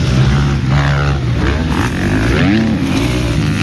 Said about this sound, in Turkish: Piste çıkan 134 motorcu tozu dumana kattı.